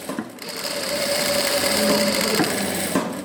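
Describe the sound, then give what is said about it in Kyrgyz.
Sewing machines run in a workshop where women are sewing ordinary sports suits, giving a continuous whirring, rattling hum that stays fairly loud and even throughout, with a few small knocks and no voices. “Биз барган учурда борбордогу 8 аял кыздардын кадимки спорттук костюмун тигип жатышкан экен.”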